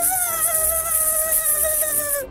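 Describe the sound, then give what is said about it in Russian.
A mosquito whines as it flies, a thin, continuous, high-pitched buzzing tone with bright overtones that holds steady and then cuts off abruptly. “Вылетел комар в окно и запищал, что было сил.”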